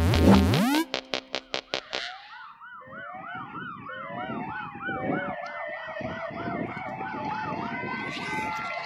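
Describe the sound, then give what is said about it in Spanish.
Ambulance siren leading a funeral procession through the village of Maimará: a quick burst of about six sharp pulses, then a loud, repeated rising-and-falling wail that carries on over a steady low rumble. “Una ambulancia va allá adelante”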